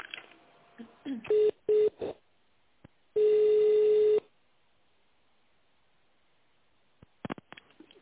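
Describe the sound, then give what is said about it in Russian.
Telephone line tones while a business call is being transferred: two short beeps, then one longer steady tone of about a second. Brief clicks and quiet line noise fill the gaps between them. “Да, секунду, сейчас переключу вас на тендерный отдел,”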